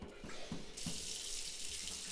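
Shower water running while the temperature is being adjusted: a quiet, steady rushing hiss of spray that grows brighter and fuller after a few faint knocks at the start, with no voices.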